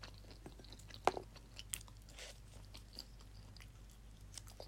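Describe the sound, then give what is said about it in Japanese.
Chewing edamame: faint, soft crunching bites with a few sharper crunches at irregular intervals over a quiet, steady background hum. “ああ、枝豆も食べます。うん、おいしい。”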